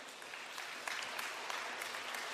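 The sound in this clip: Warm audience applause at a school event, welcoming a group of speakers that includes former students. Dense, steady clapping continues without a break.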